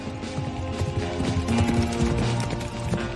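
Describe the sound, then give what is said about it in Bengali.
Four horses galloping hard through a cold, windy night: a dense, irregular clatter of hoofbeats that runs steadily through the whole stretch. “শনশন করে বয়ে চলা ছুরির মতো ঠান্ডা হাওয়ার মুখে চার বন্ধু ঘোড়া ছুটিয়ে দিল।”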